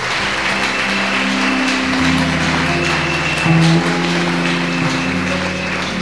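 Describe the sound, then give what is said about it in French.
A church audience claps for Jesus during a bilingual French and English service. The clapping is steady and even, over sustained low musical tones that shift in pitch. “Acclamons Jésus. Let's clap for Jesus.”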